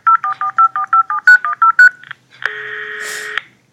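Touch-tone keypad beeps as a telephone number is dialled by children snowed in and calling their parents. A rapid, even run of short, bright beeps is followed by a brief pause and then one longer steady tone.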